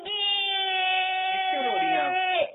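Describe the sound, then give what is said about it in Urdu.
A little girl cries in one long, high, sustained wail that holds a steady pitch, then wavers and drops lower near the end before cutting off. “اب مدینے جانے کے لیے رو رہی ہیں”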